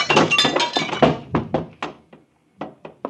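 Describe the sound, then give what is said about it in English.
Dull thunks as a vase strikes someone's head in a radio drama: a cluster of sharp, hollow knocks, then a brief pause and a few more short impacts. “You're about to be hitting a noggin, honest, Maynard, with a vase.”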